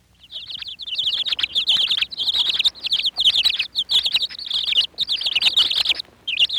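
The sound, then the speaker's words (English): A dozen three-day-old baby chicks peeping in a studio, forming a dense, loud chorus of rapid high-pitched peeps that runs almost continuously, with only brief gaps. “We took into the studio a dozen 3-day-old baby chicks, and we recorded their peeping.”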